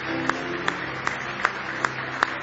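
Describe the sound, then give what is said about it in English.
A church audience claps in praise in unison: six sharp, evenly spaced hand claps in a steady rhythm, clear above a soft background. “Oh, give him a big hand clap of praise.”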